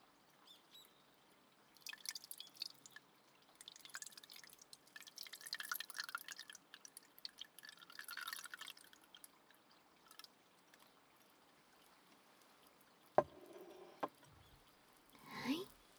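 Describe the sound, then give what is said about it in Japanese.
Black tea steeped in a pot is poured into a cup with a trickling, dripping sound that comes in uneven bursts, then fades, followed by a few brief sharp knocks near the end. “ここで先ほどポットで蒸らしていたお紅茶をカップに注いで、”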